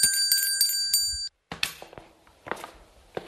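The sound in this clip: A large metal bell with a small neck is rung in several quick, bright dings with shimmering high overtones. Then it stops, and a few soft knocks and thuds follow.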